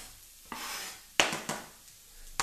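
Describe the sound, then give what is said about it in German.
Onion pieces sizzling as they are dropped into a hot pan, with a few sudden bursts of hissing that flare up and then settle back to a softer sizzle. “Zwiebelchen reinschmeißen, hörst du? Ah, ja, so muss sich das anhören. Dann haben wir eine gute Hitze drauf. Dann haben wir da mal die Zwiebelstückchen rein.”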